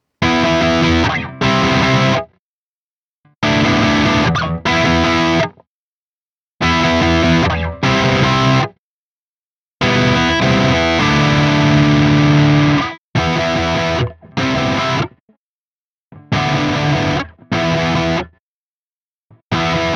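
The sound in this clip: Distorted electric guitar through a humbucker neck pickup on setting 3, played in six loud chordal phrases separated by short silences, with a thick, saturated tone.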